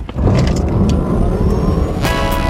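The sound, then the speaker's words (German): A Ford Puma car is driving, heard as a loud, steady engine and road rumble that fills the whole short stretch without pause. “Vereinbaren Sie jetzt einen Termin für eine Probefahrt bei Ford und erleben Sie Abenteuer statt Alltag im Ford Puma.”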